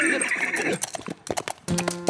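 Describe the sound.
A horse neighs with a long, high whinny, then its hooves clip-clop in a quick scatter of sharp knocks as it trots off, in a cowboy scene.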